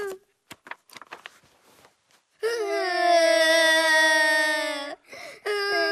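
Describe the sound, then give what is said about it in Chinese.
Children crying in a family drama scene: a loud, sustained, high-pitched wail held for a few seconds, breaking off and then resuming, after some short, quieter vocal sounds. “你哭什么呀？ 哎呦，你们两个怎么一起哭啊？一会儿全楼的人都来了。”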